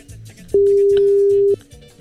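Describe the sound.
A telephone ringing tone plays while a call is being placed: one steady electronic beep lasting about a second, heard over people talking.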